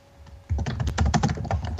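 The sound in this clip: Hard, fast typing on a computer keyboard: after a quiet start, a dense run of many loud, sharp key strikes clatters on without pause until the end.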